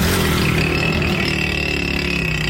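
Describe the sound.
Motorcycle engine roaring through a modified silencer: a loud, dense, rasping rumble that holds steady for the whole clip with no pauses or talk.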